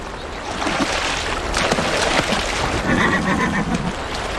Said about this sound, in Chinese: 他保住了自己的马群，终于可以安心地喝水了。